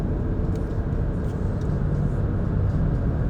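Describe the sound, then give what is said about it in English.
Steady low road rumble from a car driving on back roads through central Pennsylvania toward Lancaster, a dense, even drone with no breaks, no talk and no other clear sounds. “On back roads going back home towards Lancaster. And I am on for driving.”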